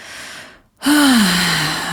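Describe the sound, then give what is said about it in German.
Deep breathing into the lower belly during a relaxation exercise: a soft, breathy exhale fades to a short silence, then a loud, full breath follows with a voiced tone that slides downward and trails off. “richtig tiefe Atemzüge in den unteren Bauch ein und wieder ausnehmen. Beim Ausatmen kannst du so richtig schwer”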